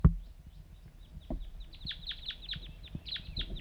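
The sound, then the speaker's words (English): Wild birds give many short, high chirps in quick succession. The chirps are faint over low rumbling noise, and a single sharp knock sounds at the very start. “Wild birds calling.”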